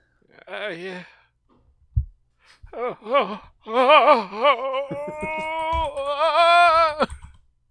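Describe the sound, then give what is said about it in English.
People imitate mournful wailing with drawn-out, wavering vocal cries: a few separate quavering wails, then a longer sustained, trembling moan that carries on to near the end. “Whichever one of us isn't speaking is going to be wailing. That sounds like one of the characters from Jellystone.”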